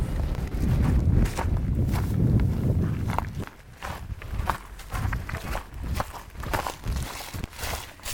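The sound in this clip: Footsteps walk along a hiking trail in a steady, even rhythm of soft crunching steps. A low wind rumble runs under the first few seconds, after which the footfalls stand out more clearly.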